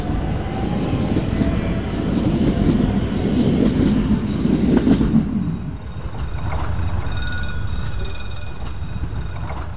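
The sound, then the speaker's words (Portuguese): A passenger train travels on rails on a stopping service from Minho to the Algarve. A steady, heavy rumble of wheels and carriages is loud at first, then eases to a smoother, quieter roll with faint tonal whines, and no one speaks. “Bem-vindos, senhores passageiros, a uma viagem do Minho ao Algarve. Efetua paragens em todas as estações e apiadeiros.”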